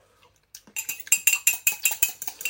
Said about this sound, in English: And then you get a fork, and you're just kind of going to beat it around.